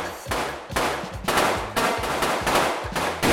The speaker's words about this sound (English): They practiced shooting guns at the Chelsea shooting range.